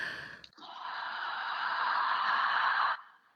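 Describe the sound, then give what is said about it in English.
A long, deep inhaled breath taken during a vocal warm-up, a steady airy rush lasting about two and a half seconds after a brief catch of breath, heard alone without talk. “So let's take a nice deep breath.”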